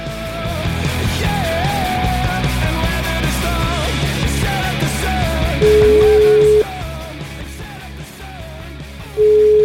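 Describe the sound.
A telephone ringing tone sounds during an outgoing call in Italy. Two long, steady beeps play at a mid pitch, and the second is cut off at the end. Both stand out loudly over continuous busy background sound.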